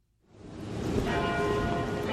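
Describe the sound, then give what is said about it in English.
University tower bells ring in Austin, Texas. The sound swells in after a brief silence, then holds as a full, dense peal with layered tones that linger and overlap. “Those are the tower bells of the University of Texas in Austin.”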